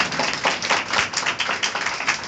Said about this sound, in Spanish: Den un aplauso al Señor, por favor, y tome asiento. No, no, pero bien, den un aplauso bien al Señor.